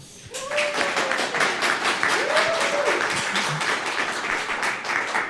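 Audience applause at a live show in Potsdam: dense, steady clapping that starts abruptly and holds at an even loudness throughout.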